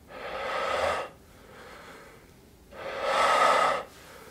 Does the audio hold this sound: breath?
yes